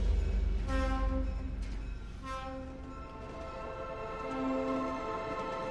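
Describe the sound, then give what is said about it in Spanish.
Rumble of an old train travelling on a freezing night, a steady low rolling drone with several sustained tonal notes, like a horn or whistle, rising and fading above it at intervals. “La noche helada llena de escarchas las ventanas del viejo tren. El turco, sentado solo en todo el vagón, regresa rumbo a su hogar”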